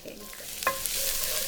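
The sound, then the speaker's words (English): Garlic hits shimmering hot oil in a skillet with a sudden hiss after a little stirring, then settles into a steady, broad sizzle that lasts to the end. “And we start with garlic.”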